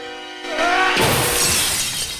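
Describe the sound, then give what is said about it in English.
Glass shatters as a bronze statue is hurled through a window pane. A sudden loud burst of breaking glass spreads into a bright, crackling spray of falling shards that fades slightly toward the end. “He sends the bronze flying through the glass, shattering the entire pane.”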